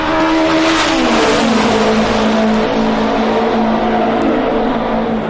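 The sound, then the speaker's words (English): Engine of the Novi race car, one of the loudest in speedway history, blasts through a turn onto the straightaway during qualifying for a 500-mile race. It is a steady, very loud roar whose pitch dips slightly early on and then holds. “one of the loudest and most popular cars in Speedway history, to try and qualify for his first 500-mile race. There he is on the turn, onto the straightaway.”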